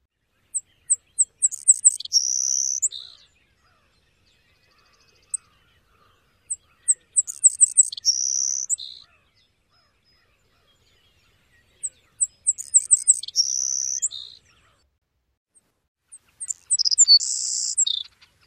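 Savannah sparrow song, repeated four times with pauses between. Each song opens with a few thin, high ticking notes and ends in a bright, buzzy trill.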